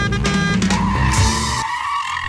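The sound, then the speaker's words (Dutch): A car engine roars and tyres squeal as the car pulls away. The sound is loud and alone at first, then the low rumble drops out and leaves a thinner steady tone. “starten we de auto.”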